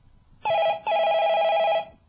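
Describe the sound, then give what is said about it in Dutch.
Ringback tone of an outgoing telephone call: a short buzzing ring, a brief break, then a longer one at a steady, even pitch, with no talk. “We gaan eens even bellen nu gewoon met Frans Bauer zelf.”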